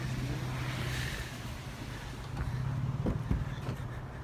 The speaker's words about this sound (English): He's stuck. Look at him spinning tires.